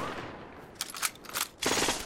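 Gunfire in a snowy wartime shootout, as a sergeant and a lieutenant trade shots with crawling German soldiers, one firing from behind a barrel: a few rough, rattling bursts of shots, fairly quiet, after a hissing lead-in.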